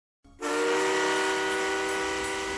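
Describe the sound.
A train whistle blows as a sound effect: one loud, sustained harmonic tone that starts abruptly after a brief softer onset and holds steady to the end, with no voices.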